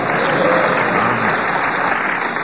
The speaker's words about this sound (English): We've got more applause